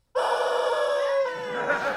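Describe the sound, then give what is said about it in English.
A rubber chicken toy squawks as someone squeezes it: one long, reedy, strongly harmonic squeal that starts abruptly and holds for nearly two seconds, wavering and roughening toward the end. “Here, squeeze my chicken.”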